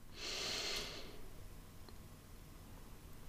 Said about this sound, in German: Atme mal tief durch die Nase ein.